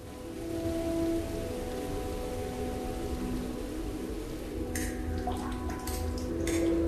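Rain falling outside makes a steady, dense hiss throughout, with a few faint drips and light ticks near the end.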